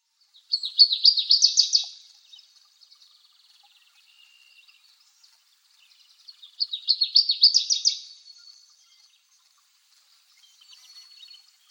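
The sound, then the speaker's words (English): Virginia rail calls, two bursts of rapid, high-pitched ticking notes separated by a long quiet gap, with a fainter third burst starting at the end. “Virginia rail.”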